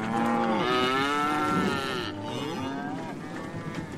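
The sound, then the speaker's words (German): Cows mooing, part of a group of seven cattle driven aboard a ship as live food stores; long, drawn-out, low harmonic moos that run on one after another, loud and alone with no talk. “Als lebendige Essensvorräte wurden 7 Kühe an Bord getrieben.”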